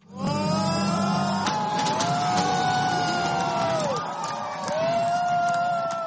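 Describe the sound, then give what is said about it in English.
Supporters of Volodymyr Zelensky cheer as Ukrainian presidential runoff exit polls come in, a loud, continuous crowd din with high shouts and whoops rising above it. “Supporters cheered as they watched the Ukrainian exit polls come in after an apparent landslide victory of Volodymyr Zelensky.”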